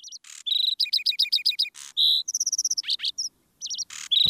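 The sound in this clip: A lark sings overhead in a rapid, high-pitched stream of varied chirps, trills and short whistled phrases, broken by brief pauses, with no other sound.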